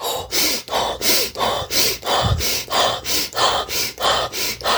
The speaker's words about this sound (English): So hyperventilation.